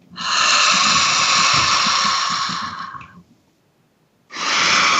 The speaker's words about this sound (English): Deep breath.